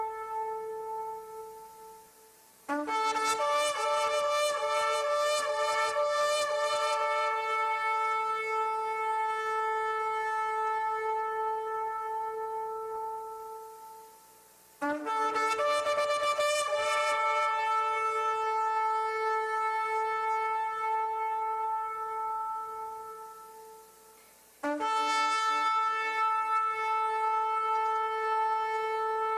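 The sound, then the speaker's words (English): Real ram's horn blown in long sustained blasts, each a loud, brassy, harmonic-rich note with a rough, breathy attack. Four held notes in all, the first already sounding at the start and fading, the next three each lasting around ten seconds. “Have you ever heard a ram's horn blow? Three of you? You want to hear one? I got it recorded. You ready? Let's listen to the ram's horn.”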